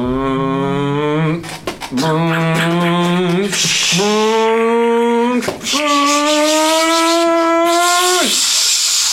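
A lunar rover drives fast and shifts up to fourth gear. Its engine gives four loud whining tones in succession, each rising in pitch and split by short breaks, with hissing noise layered over them.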